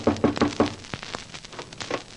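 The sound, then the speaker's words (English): Knocking on a door: four quick, firm raps in an even rhythm, followed by faint scattered taps and quiet. “I hurried down as they knocked on my door.”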